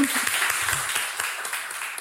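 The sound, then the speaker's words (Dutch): Applause for a storyteller at a live show: dense, steady clapping fills the short stretch at an even loudness, with no clear break or swell. “Applaus voor Lisa. Applaus voor Lisa.”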